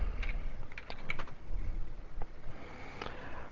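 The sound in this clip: Keys clatter on a computer keyboard in quick, irregular bursts of light clicks and taps, moderately loud and steady throughout, with no voices.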